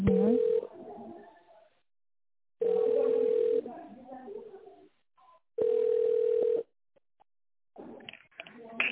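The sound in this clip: Telephone ringback tone while a call is transferred: three long, steady, mid-pitched beeps at even intervals, with voices and line noise in the gaps between them.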